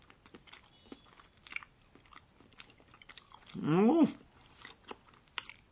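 Someone bites and chews a round, sticky daikon radish about four centimetres across, with faint soft clicks and crunches scattered throughout and a short voiced hum rising in pitch midway.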